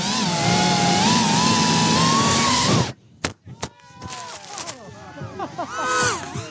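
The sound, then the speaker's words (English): A racing drone's motors give a loud, steady, high-pitched whine as it speeds through an outdoor obstacle course on a windy day. The whine lasts about three seconds and then cuts off abruptly. Scattered clicks and voices follow. “That is not a dental drill. It's a drone racing through an outdoor obstacle course on a windy day until it touches down.”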